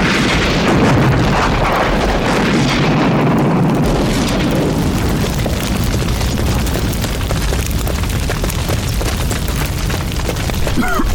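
A propane tank taken off a grill explodes in a fire: a loud, deep blast that swells into a long, heavy rumbling roar lasting several seconds.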